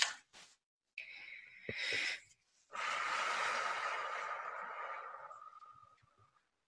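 Slow, deep breathing during a guided relaxation exercise: a few short, soft breaths, then a long, steady exhale that fades out gradually. Quiet throughout.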